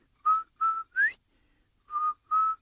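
Human whistling: five short, clear notes. The first two are steady and the third slides upward, then a pause comes before two more matching notes. The whistles are fairly faint and stand alone with no talk.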